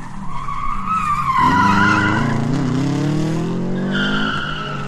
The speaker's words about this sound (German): Malst du da gerade eine Krone mit deinen Reifen in den Asphalt?